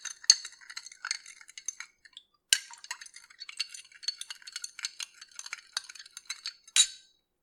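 Something being stirred and mixed in a container, with many light clinks, scrapes and rattles in an uneven rhythm, a brief pause partway through, and a few sharper knocks standing out.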